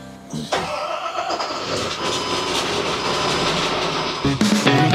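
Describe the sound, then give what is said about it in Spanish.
First start of a JAC HFC3251 dump truck engine during a test run: a brief crank bursts into a loud, rough, steady roar that holds for several seconds before shifting near the end. “Nos encontramos aquí probando el camión Jack HFC3251. Mediante este software monitoreamos lo que es la temperatura del motor, cómo está el motor. Empecemos. Primer arranque.”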